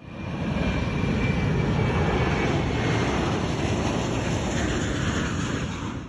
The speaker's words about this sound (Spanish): Tripulación, próximos al despegue.